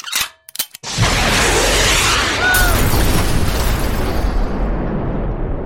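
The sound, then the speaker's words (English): Rocket launcher firing and exploding: a few short, sharp bangs lead into a loud blast, which becomes a broad, rumbling roar that slowly fades without dying away. “Is that? Yeah. Your rocket launcher”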